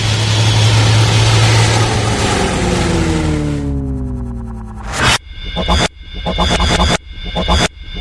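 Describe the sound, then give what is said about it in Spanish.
An aircraft engine drones before takeoff as a radio sound effect. A loud, steady, heavy hum gives way to a few choppy, pulsing surges of engine noise near the end. “Estamos a punto de despegar. Abrochen su cinturón.”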